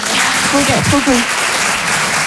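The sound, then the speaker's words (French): Audience applause at a French-speaking show, an even, sustained clatter of many hands with a voice speaking briefly over it midway. “Par applaudissement, qui voit ce que c'est, le vitiligo?”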